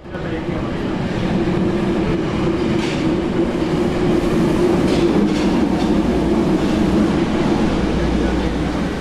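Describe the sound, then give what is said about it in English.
A train arrives at a platform with a loud, continuous rumble of rolling wheels and rail clatter that fills the whole stretch, its deep low-end roar swelling toward the end. “They look at each other as a train arrives at their platform.”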